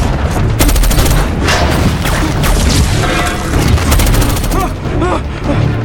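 Heavy gunfire erupts during a Decepticons attack, rapid bursts of shots mixed with booms that keep up a loud, continuous barrage.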